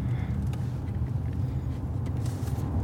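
A car backing up, its engine giving a steady low rumble for about three seconds with no voices.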